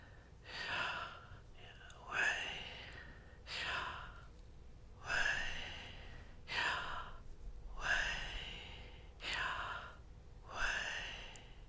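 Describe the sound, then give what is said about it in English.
Slow, deep breathing in and out repeats in a steady rhythm, a series of soft, airy surges of breath rising and falling at even intervals, quiet and unhurried. “You breathe in. You breathe out.”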